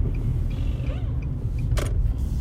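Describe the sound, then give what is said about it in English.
Low, steady engine and road rumble inside a moving car, constant throughout, with a brief bright hiss partway through and no voices. “I'm driving right now, so yeah.”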